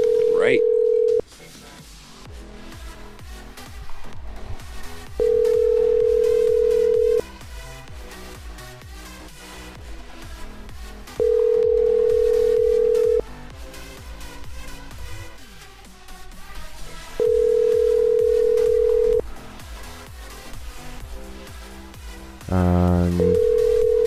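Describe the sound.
Telephone line tones: long steady beeps, each lasting a couple of seconds, repeat at regular intervals over a faint background, and a quick burst of dialing tones comes near the end.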